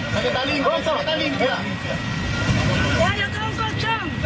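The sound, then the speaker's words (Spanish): Voices of rescuers calling and shouting over one another during rescue work in Venezuela, with a steady rumble of engines and traffic underneath the whole time. “Así suenan las labores de rescate en Venezuela.”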